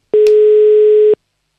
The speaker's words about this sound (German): Die Nummer wählen wir. Und dann hoffen wir, dass jemand abhebt.